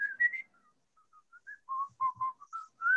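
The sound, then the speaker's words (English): Someone whistles a tune from an old song: a melody of many short, clear notes with small pauses between phrases, heard alone at a moderate level. “it's literally somebody whistling”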